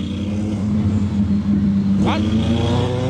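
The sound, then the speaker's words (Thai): Motorcycle engines roar as Bang Sue traffic police on motorbikes chase a man riding a big bike who refused to stop; a steady droning engine note leads into a sharp rising rev near the end, with talking over the noise. “ตำรวจจราจรสังกัดสน.บางซื่อครับขี่มอเตอร์ไซค์ไล่ล่าชายขี่บิ๊กไบค์หลังเรียกให้จอดนะฮะไม่ยอมจอด”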